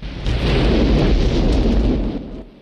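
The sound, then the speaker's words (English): A roaring burst of flame as petrol spewing from pipes in the ground ignites after a thrown lit Zippo in a Rambo action film: a loud, heavy, rumbling whoosh that holds for about two seconds and then quickly fades. “He lights a Zippo and throws it on petrol spewing forth from pipes in the ground. It bursts aflame and Rambo runs off.”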